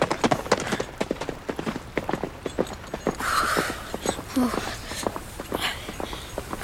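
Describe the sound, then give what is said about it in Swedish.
Horses' hooves clip-clop as soldiers ride away on horseback, a quick run of sharp, loud hoof strikes that continues for the whole stretch. “Han bara red därifrån och tog de andra soldaterna med sig.”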